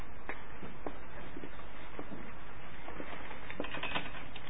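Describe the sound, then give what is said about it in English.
A black marker scratches and squeaks faintly in short, irregular strokes while someone writes, over a steady background hiss. “Okay, the brother just told me to write in black marker.”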